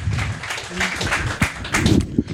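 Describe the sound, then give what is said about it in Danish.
Audience applause greets a guest on a live Danish comedy talk show, a steady broad patter of clapping running through the whole moment beneath a host's speech. “Mine damer og herrer, giv en kæmpe stor hånd til en akupunktør. Giv ham en hånd.”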